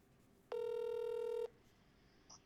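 A single steady electronic telephone tone sounds alone for about a second while a caller is dialed, then gives way to near-silence with a faint brief blip.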